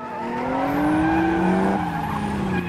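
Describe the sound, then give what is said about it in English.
Two cars screech to a halt, tires squealing in a long, loud, tonal whine that climbs slightly in pitch over a steady engine rumble before easing off. “Everyone looks round at DK's Nissan Fairlady, and two other cars screech to a halt beside them.”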